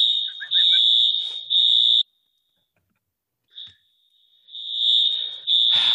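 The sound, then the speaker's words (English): A shrill, high-pitched fire alarm blares in loud, sustained bursts, cuts out for about two seconds, then sounds again with the same piercing tone. “that was a fire alarm that went off.”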